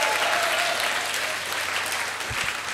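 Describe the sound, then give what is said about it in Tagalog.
An audience applauds during a church service, with dense, steady clapping from many hands filling the whole stretch at an even loudness and no voices standing out. “Sige, palakpakan natin ang Panginoon.”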